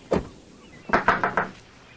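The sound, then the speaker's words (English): Knocking on the screen door of a house: one sharp rap, a brief pause, then a quick run of four light, rattly knocks in even rhythm. “She knocks on the screen door of a house.”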